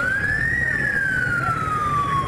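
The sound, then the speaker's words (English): Ambulance siren in Cameroon, speeding toward a general hospital, sounding one long loud wail that rises, then slowly falls, steady and unbroken over low road rumble. “This ambulance rushed to the Yaounde General Hospital last month”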